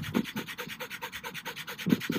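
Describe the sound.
A voice imitates a dog panting with many quick, evenly spaced breathy huffs in a steady rhythm, fairly soft throughout, with no talking.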